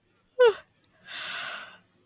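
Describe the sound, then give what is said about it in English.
A person yawns: a short, high, voiced vocal sound comes first, then after a pause a longer, breathy exhale that trails off into quiet. “excuse my yawn.”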